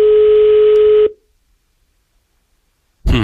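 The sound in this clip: A steady telephone dial tone as a listener is being called: a single held electronic tone for about a second that cuts off sharply, followed by silence before a voice begins.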